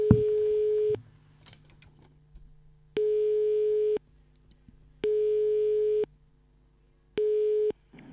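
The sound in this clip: A studio telephone calling out to a contest winner: four bursts of a steady, mid-pitched ringing tone, each about a second long, separated by short gaps filled with a faint low hum. The final burst is cut short.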